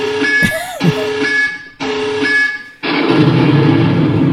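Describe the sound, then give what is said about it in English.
Loud 'tactical nuke incoming' alert sound effect: three dense electronic blocks carrying steady high tones, split by short dips, with the final block a harsher, fuller roar. “This is what I was ready to do. Tactical nuke incoming!”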